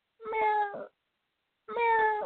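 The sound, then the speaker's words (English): A voice imitates a cat meowing: two drawn-out, tonal meows separated by a pause of about a second, each rising in loudness and then trailing off, with no other sound around them. “it sounds like a cat over there”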